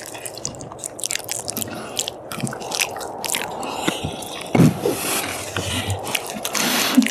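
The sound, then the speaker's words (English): People eat and chew close to the microphone, making many moist clicks, smacks and crunchy bites at an irregular pace. The sounds are mostly soft, with a louder crunch midway and busier chewing toward the end. “This microphone is a little bit too good. You can hear all of our sounds of eating, I guess.”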